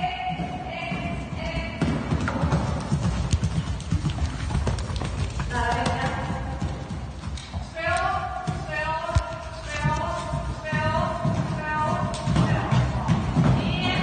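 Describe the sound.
Hooves of a horse clearing an eight-obstacle pay-and-jump show-jumping course at a riding school, with steady rhythmic thuds and scuffs throughout and voices heard along with them.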